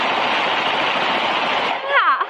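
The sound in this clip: Tommy guns firing in a rapid, unbroken burst, a dense loud rattle of gunfire lasting about two seconds before it cuts off and a brief voice is heard.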